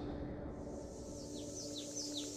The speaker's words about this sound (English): Hidden cicadas lent their voices to a dull chorus.